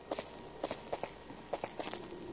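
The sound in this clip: Footsteps walking at an even pace, with many soft, paired steps that are faint and unaccompanied by any voice.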